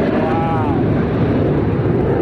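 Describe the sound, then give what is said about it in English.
A B-2 bomber passes over the White House in a flyover, producing a loud, steady, broad roar that continues unbroken throughout. “There's the B-2. The B-2 bomber.”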